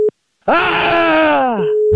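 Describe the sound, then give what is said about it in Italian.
A telephone busy tone follows a hung-up call: a short steady beep, then a loud drawn-out groaning voice that falls in pitch, before the steady tone returns alone. “Questa cosa non ci voleva. Dopo questa chiusura telefonica, Ennio non ha più risposto”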